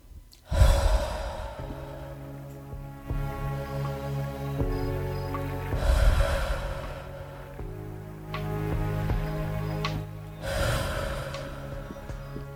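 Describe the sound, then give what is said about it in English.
Three deep breaths, each a long, slow, airy inhale and exhale, spaced several seconds apart over a soft, sustained music bed. “If you are in a place you can close your eyes and just give three big inhales and exhales.”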